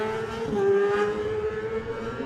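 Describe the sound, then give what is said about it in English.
A Triumph ST765RS racing motorcycle passes on a mountain road-racing course, its engine a continuous high, steady whine that swells slightly in the middle, dips a little in pitch, then carries on. “Next runner behind him, you can hear that Triumph, the BVS vehicles, Triumph ST765RS.”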